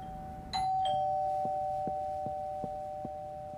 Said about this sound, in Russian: нажимает на звонок